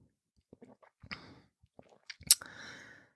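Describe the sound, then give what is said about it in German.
Someone takes a sip of sweet malt beer. Faint, sparse mouth and swallowing noises and soft clicks build to a louder, sharp slurp near the end, followed by a breathy exhale. “Ich muss noch mal einen Schluck trinken, Moment.”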